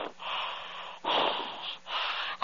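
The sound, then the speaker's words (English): Heavy, rasping breathing after a workout: three long, loud, breathy heaves with short gaps between them, ending in a sharper intake, with no talk. “I'm sorry for breathing so hard. I've been working out, you know?”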